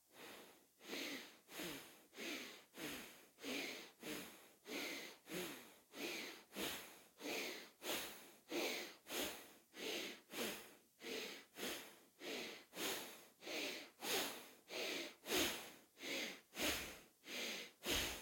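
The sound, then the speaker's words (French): Forceful bellows breathing through the nose (bhastrika), many rapid, even sniffing inhales and exhales in a steady rhythm, each breath a loud whooshing rush of air, with no talking. “on va respirer fortement par le nez, fortement à l'inspire et à l'expire, comme un soufflet de forge”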